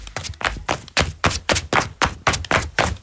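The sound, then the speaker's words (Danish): Flip-flops slapping against the feet while someone walks, a summer sound: many crisp, even slaps at a steady walking rhythm, each a sharp smack with a low thud beneath, heard alone. “Så kan det godt være, at du sidder og tænker, og tal, det var da lige lovligt frækt. Men bare roligt, det er bare lyden af klipklapper.”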